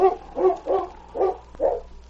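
A dog barks five times in an uneven rhythm. The barks are loud, mid-pitched and harmonic, and they stand alone without talk.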